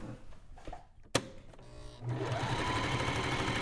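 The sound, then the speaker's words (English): A sewing machine stitches fabric scraps: a few soft mechanical knocks and one sharp click, then the motor starts into a steady, rapid whirring hum that runs continuously to the end. “We produce scraps by making projects. There's always bits of fabric left at the end, but you can reuse them. All right, let's do some nice sewing.”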